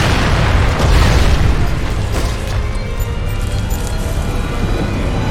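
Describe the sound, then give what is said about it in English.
Explosions in Halo 3 as the floor blows apart around a vehicle: a dense, continuous roar of overlapping booms and crackling blasts, loud throughout with no clear breaks. “But in Halo 3, the floor is like exploding around you, and it's really easy to just drive off into the.”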